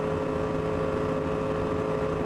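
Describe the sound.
An Audi R8 race car engine at full throttle climbing a hill during a VLN endurance race, holding a steady, sustained high-revving drone with a strong tonal note.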